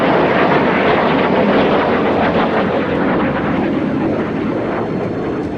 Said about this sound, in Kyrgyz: Төңкөрүшчүлөр көзөмөлдөгөн F-16 учактары коомчулукту коркутуу үчүн Анкаранын үстүнөн төмөндөп уча баштады.